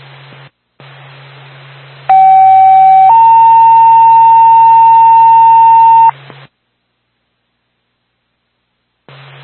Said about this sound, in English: Cleveland Station, Mount Ambulance, second tone.